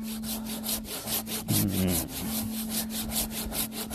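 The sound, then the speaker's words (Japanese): A hand saw cuts through a tree trunk on a mountainside, many quick rasping strokes in a steady back-and-forth rhythm, with no talk over it. “この木をねノコで切るっていうね”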